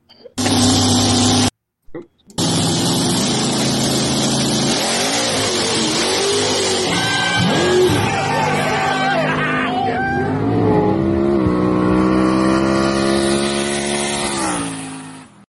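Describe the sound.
Race car engines rev loudly and continuously in a race clip, the roar shifting in pitch as the cars accelerate, with people talking over it.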